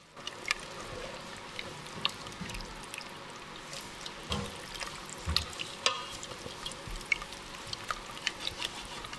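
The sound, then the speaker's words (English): Heavy cream simmers and is stirred into a miso mushroom pasta sauce: a quiet bubbling patter with scattered soft clicks and scrapes from the stirring. “And just bring that to a quick simmer. And your sauce will be like really creamy and smooth. And give it a simmer and a stir.”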